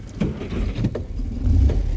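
A car setting off gives a low engine rumble with a few soft mechanical knocks, growing a little louder toward the end, with no talk.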